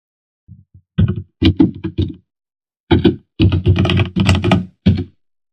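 Fast typing on a computer keyboard, entering a product category, with rapid clusters of crisp key thunks in short bursts separated by brief pauses.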